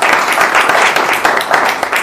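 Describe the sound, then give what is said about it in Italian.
Audience applause at a talk on the Jubilee, loud, dense clapping that pulses slightly throughout, with no voices. “Quindi grazie e un bel applauso anche per voi.”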